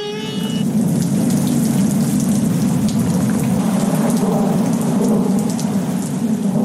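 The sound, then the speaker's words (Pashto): Heavy rain pours in a constant loud downpour while thunder rolls beneath it as a deep sustained rumble, the dense patter continuous throughout with no voices. “یوه ورځ نجومی دربار ته ورخطا راننوت او پاچا ته یې وویل په لنډو ورځو کې یو خطرناک باران را روان دی.”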